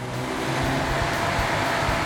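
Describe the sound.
Ford Capri's 2.8-litre V6 engine accelerating, a loud, dense, continuous roar that holds steady throughout with no speech over it.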